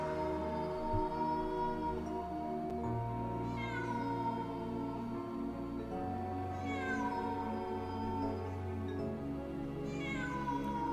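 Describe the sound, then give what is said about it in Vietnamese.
Cat yowling and meowing near a cemetery, with long, drawn-out, wavering cries that rise and fall a few times over a steady droning background, with no voices. “Đằng sau là tiếng con mèo vẫn bám sát đằng sau lưng, tiếng kêu đầy oán hận.”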